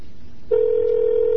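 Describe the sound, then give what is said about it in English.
A telephone line tone comes in suddenly after a faint hiss of background noise. It settles into a steady, unbroken mid-pitched hum that runs to the end, with no voices. “hopefully this will work. I don't know if I'm dialing the right friggin' number.”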